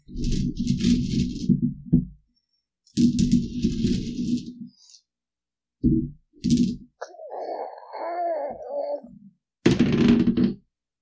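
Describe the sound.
Dice rolled onto a table during a game, heard as a few separate bursts of clattering and knocking with silent gaps between them.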